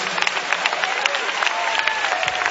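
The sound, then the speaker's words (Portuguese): Congregation clapping hands together at a church service, a dense, steady patter of many overlapping claps that runs without pause from start to end. “Pode bater as palmas para Jesus.”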